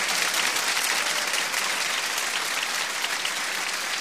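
Audience clapping along: loud, dense clapping runs evenly from start to finish with no pauses.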